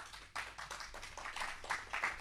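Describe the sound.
Audience applause greets a poet taking the stage at a Hindi poetry recital: a dense, steady patter of many hands clapping, fairly faint, with no voices over it.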